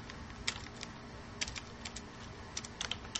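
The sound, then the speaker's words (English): Someone types a search on a computer keyboard, with many soft, irregular key clicks in quick bursts and brief pauses between them. “I'm going to type in here, how to tie a shoe”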